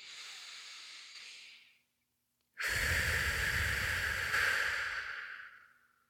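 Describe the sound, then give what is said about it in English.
A deep cleansing breath: two long, airy, hissing breath sounds separated by a short silence. The second is louder and fuller, with a low rushing body, before it fades out. “Let's land here in this present moment together with one nice, deep, cleansing breath. Here we go. Breathe.”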